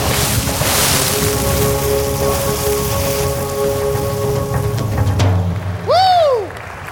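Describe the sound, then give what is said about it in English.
A splash sound effect for a cannonball jump into water during a morning church welcome: a steady rushing watery noise, then a sharp hit near the end and a short burst of swooping whistle-like tones. “as together we go swimming in the deep end. Cannonball!”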